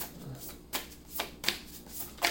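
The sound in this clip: Tarot cards being shuffled: a few short, crisp riffling bursts spaced irregularly, fairly faint, with no talking.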